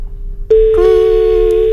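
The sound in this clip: A telephone ringing tone sounds on a French line as a loud, steady, single-pitched beep held for over a second, after a short stretch of faint low hum.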